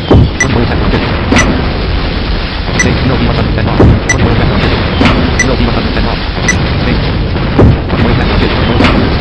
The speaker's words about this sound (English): Alright, so there you go, the platform is destroyed.